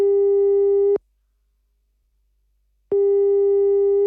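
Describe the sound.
A telephone ringback tone heard while placing a call: two long, steady, buzzy tones at one pitch, each about a second long, separated by a two-second silence.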